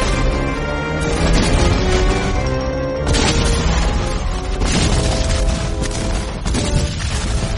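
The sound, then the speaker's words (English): Artillery bombardment in a radio drama set in 1861, with booms and crashes merging into a loud, dense, continuous roar that breaks off briefly and surges back. “April 13, 1861. After 34 hours of constant bombardment, Major Anderson...”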